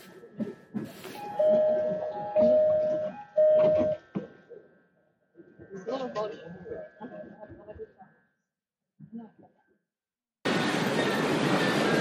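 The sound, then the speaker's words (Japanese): Departure chimes and train noise at a railway station as a train is about to leave: a few steady bell-like chime tones ring out, a voice talks, then a loud, sustained rush of train noise cuts in at the end. “あもう電車が出そうですとりあえずなんか手近なのに乗って行ってみたいと思います”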